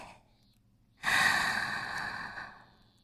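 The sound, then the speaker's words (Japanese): Slow, deep inhale during a guided breathing exercise: one long, breathy intake of air that swells in about a second, holds steady, then fades away. Only faint sound comes before it. “少しずつ、少しずつ、吸って、”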